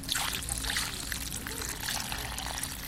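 Water trickles steadily onto a newly planted plant whose soil has just been firmed down, a continuous, soft, hissing pour that stays even throughout.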